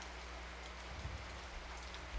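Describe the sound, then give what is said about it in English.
Steady rain falls in an even, soft hiss of patter, with a few slightly heavier drops near the end. “And the rain relaxes you. Rain relaxes you.”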